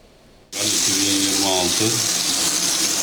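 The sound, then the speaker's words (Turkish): Muddy water gushing from a household tap in Istanbul's Anatolian side during a reservoir fault: after a brief quiet moment the flow bursts on loudly and keeps running in a steady splashing rush, with a faint tonal hum beneath. “İstanbul'un Anadolu yakasında musluklardan adeta çamur akıyor.”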